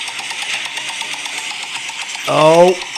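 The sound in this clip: A prize wheel spun for a plot-line game gives off a rapid, steady run of ticking clicks, followed near the end by a brief voice.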